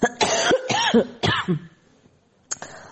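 Heavy, harsh coughing from a person recovering from an illness, with several rough hacks in quick succession, a pause, then one more cough.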